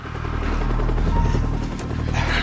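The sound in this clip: A helicopter's rotor drone holds steady and loud from start to end as an armed search-and-destroy team jumps out, with a heavy low thrum and no clear pause.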